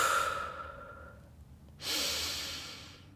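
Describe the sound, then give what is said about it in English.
Deep breathing during a guided smile meditation: a long, airy breath fades away, then after a short pause a second strong breath rushes in and slowly tapers off. “I want you to take three deep breaths on the smile.”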